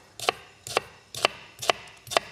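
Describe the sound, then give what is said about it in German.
Five crisp, evenly spaced knife chops as a red onion is diced into cubes. Each chop is a short, sharp tap in a steady rhythm, with no talking. “Und dafür schneide ich einfach eine rote Zwiebel in Würfel.”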